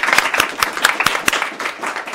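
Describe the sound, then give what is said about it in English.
Applause from a live studio audience, heard as scattered, fairly sparse claps with distinct sharp hits rather than a dense roar. “I'd get them to give them a round of applause, but they were a bit lacklustre earlier. Can we do that now?”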